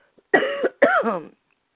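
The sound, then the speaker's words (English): Two short, throaty coughs from an elderly person, one right after the other, each a rough voiced burst with silence around it. “Got a little cough.”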